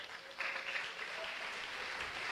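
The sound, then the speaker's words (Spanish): Faint, steady applause from an audience, a soft continuous patter of many hands that swells slightly after the start and then holds even. “Denle un aplauso a Gritz.”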